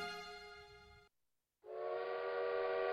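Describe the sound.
A train whistle sound effect gives two sustained, harmonic-rich blasts separated by a brief silence. The second blast sounds fuller and somewhat louder than the first.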